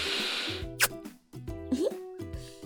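A big kiss on the cheek, a quick wet smacking plop followed by a short squeaky smack over soft background music.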